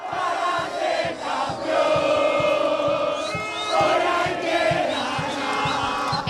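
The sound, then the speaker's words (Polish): Argentina fans cheer and chant in a fan zone outside a stadium in Atlanta after a dramatic late win: loud massed voices over steady rhythmic beats. “Zwycięstwo zapewnili sobie w dramatycznych okolicznościach, odwracając losy meczu w 85. i 92. minucie. Strefa kibica przed stadionem w Atlancie oszalała.”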